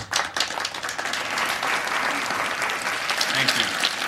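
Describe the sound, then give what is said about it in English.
Applause from dozens of people standing after a speech, a dense, steady wash of clapping that carries on without a break. “That sound is the sound of dozens of people standing up and applauding a speech”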